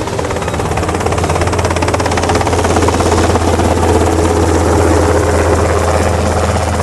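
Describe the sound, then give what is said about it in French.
Steady, loud whirring drone of an ornithopter aircraft as it turns and picks up speed toward distant mountains, a dense rotor-like throb that runs unbroken for the whole stretch without any talk. “L'orthoptère vira de bord et prit de la vitesse en direction des montagnes lointaines.”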